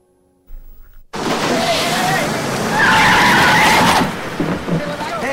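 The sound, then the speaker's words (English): A car being driven to police headquarters in New York breaks into a loud tire squeal and skid after a brief quieter opening, with a harsh roar that swells and then eases near the end. “Freddy drives Superboy to police headquarters in New York.”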